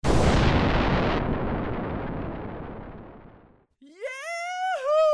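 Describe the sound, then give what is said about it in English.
A nuclear bomb explodes in a video game: one loud, booming blast that rumbles and slowly fades over about three seconds. A voice then calls out. “bombing the heck out of it. Yeah! Soul rules! Generally, it's a good idea to stay out of the way of the nuclear bombs.”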